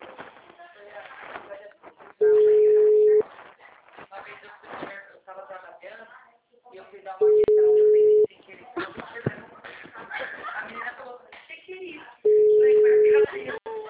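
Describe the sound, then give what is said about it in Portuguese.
An outgoing phone call rings, heard as three steady one-second beeps spaced about five seconds apart. People talk over and between the tones. “a menina tá ligando, a menina tá ligando.”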